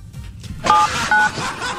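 Telephone keypad tones as a number is dialed: two short, dual-pitched beeps one after the other over a steady background hiss.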